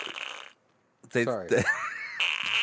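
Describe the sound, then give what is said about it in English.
A comic fart noise, a buzzy, wobbling blat that is heard as a brief burst and then a longer, louder drawn-out stretch after a short gap. “that's my favorite fart noise, that one.”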